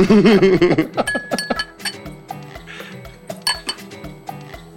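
Champagne glasses clink together in a toast, with several bright, ringing taps and light glassy clatter repeating in an uneven rhythm.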